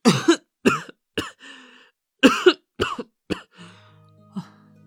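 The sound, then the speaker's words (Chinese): A man leaning on a table coughs in two fits of several sharp, hoarse, voiced bursts each, with a softer throaty rasp trailing at the end. “他扶着桌子咳了起来，不忘偏头避开桌上的食盒。”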